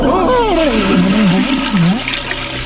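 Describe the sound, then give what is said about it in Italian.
Toilet flush sound effect, a rushing, gurgling swirl of water, with a voice wailing over it in wavering, falling cries. “Affoga nel water, con le feci nelle fauci e il corpo incastrato nelle tubature.”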